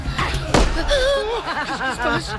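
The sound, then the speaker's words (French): A single pistol shot cracks out sharply and briefly, followed at once by voices and snickering laughter. “Un coup de feu. Quelqu'un tire au pistolet sur les Perses.”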